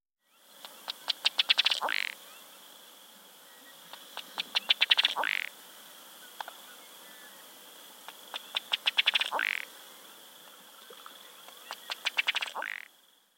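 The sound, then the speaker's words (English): A ruddy duck gives four display calls, each a quick run of dry ticking pulses that speed up and end in a short, burry croak, spaced a few seconds apart. “Ruddy Duck.”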